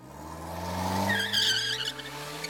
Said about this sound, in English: you peel out and it misses your bumper by an inch.